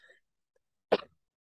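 A single short, sharp sneeze bursting out of near silence, with no other sound around it.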